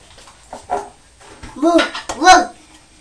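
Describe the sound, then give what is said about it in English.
A person imitates a dog barking, giving a few loud, harsh barks. The last two are the strongest, with a fainter sound before them. “Because the dog didn't bark next door, you're barking instead of the dog.”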